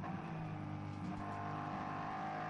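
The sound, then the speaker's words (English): A BMW race car's engine on track during a GT endurance race, a steady, continuous mid-pitched drone at moderate level with no distinct pass-by or gear change, heard without voices. “This is a battle for overall third. The BMW leads the Pro-Am class”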